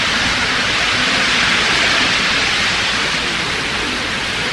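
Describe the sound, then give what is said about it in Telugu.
Rain falling in an even, continuous hiss that holds a steady level for the whole stretch, with no distinct drops, pauses or voices standing out. “ఇవాళ మధ్యాహ్నం అంతా ఎండ, ఇప్పుడు వర్షం, అది కాలం.”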